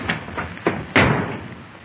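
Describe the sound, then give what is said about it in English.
A door being shut: a few soft knocks and thumps lead into one firm, louder slam that rings briefly and dies away, with no voices. “Here, shut the door.”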